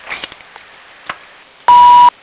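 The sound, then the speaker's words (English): A voicemail recording tone sounds as one steady, mid-pitched electronic beep lasting under half a second. It comes near the end, after a few faint clicks and rustles, with no talk over it. “Please leave me a message at the tone and I'll return your call as soon as I can.”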